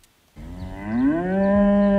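A young cow lets out a single long moo while grazing under solar panels on a farm field, loud and sustained, the pitch rising slightly before holding steady to the end.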